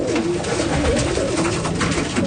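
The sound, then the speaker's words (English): Pigeons swooping down to be fed grain, a dense fluttering of wings mixed with low cooing, steady and fairly loud throughout. “a few pigeons begin swooping down from trees towards us.”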